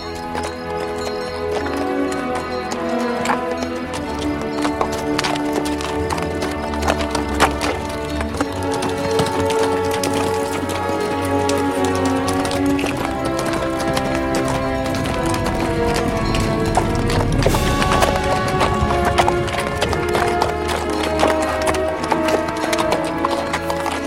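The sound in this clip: Horses walk across low grey scrubland, their hooves clip-clopping in a steady, continuous rhythm. The hoofbeats stay fairly loud throughout, within a dense, busy sound.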